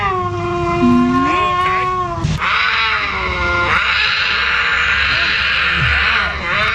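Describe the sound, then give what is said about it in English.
Lynx mating call, with loud, drawn-out, harmonic yowls sliding in pitch, broken briefly midway, then rougher, raspy caterwauling that continues steadily to the end. “I mean, that kind of sounds like a lynx. A lynx and a cougar sound very similar.”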